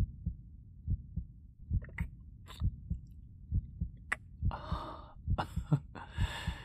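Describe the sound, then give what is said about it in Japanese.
A heartbeat thumps steadily in soft, low double beats, many in a row and quiet throughout, with breathy noise joining in the second half. “もしかしてこれお嬢の心臓の音？”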